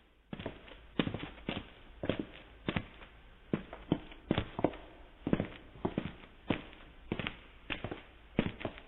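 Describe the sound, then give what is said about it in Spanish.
Many feet walk through an echoing passage, a steady run of many soft, thudding footfalls with a hollow, reverberant tail, at a moderate level with no voices. “Entonces llegó hasta mí el sonido de muchos pies que caminaban, muriéndose en algún pasaje que enviaba un eco retumbante.”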